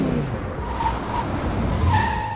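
A car pulling up outside: a steady, low engine rumble mixed with tire noise on the road, holding at a fairly even level throughout.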